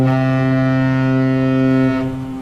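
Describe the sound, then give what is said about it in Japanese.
A ship's horn sounds as a ship leaves Yokohama port bound for Singapore. It is a single long, deep, steady blast, loud and alone, holding for about two seconds before tailing off. “要は今、横浜港を出てシンガポールに向かうところでございますから”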